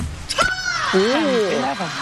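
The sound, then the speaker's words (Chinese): A table tennis player's long, high shout after winning a point in a match against a teammate. The shout is loud and carries into voices talking. “这个球赢完，王曼云也是大喊一声啊，挺释放的。”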